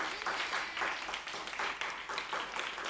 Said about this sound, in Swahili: Hebu mpigieni kwanza Bwana Yesu makofi.